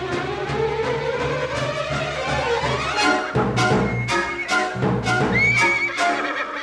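Startled horses neigh and run away, one long whinny rising in pitch over a steady background, then several sharp hoof thuds and another high whinny toward the end, with no voices.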